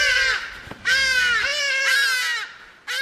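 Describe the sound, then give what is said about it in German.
Hadeda ibis calling in a garden in Johannesburg: a run of loud, harsh, nasal calls with strong harmonics in quick succession, each call drawn out, with short gaps between them. “Hagedasche sind oft in Schwärmen unterwegs und haben sich den ganzen Tag über viel zu sagen.”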